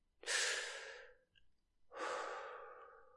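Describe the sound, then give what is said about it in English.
Two long, deep breaths drawn in and pushed out through pursed lips, each a broad airy rush that swells quickly and then tapers slowly, with a short pause between them. The breathing is calm and steady and is heard alone. “the breaths are longer and even calmer than before. Deep, intense inhales followed by conscious exhales through pursed lips.”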